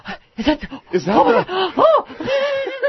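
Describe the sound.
A voice imitates a man's dramatic gasp on nearing the Oval Office, a quick run of breathy, pitch-swooping vocal sounds lasting about three seconds.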